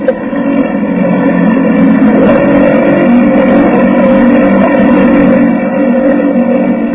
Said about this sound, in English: shut off the motor. We'll glide in. I don't want to broadcast our approach.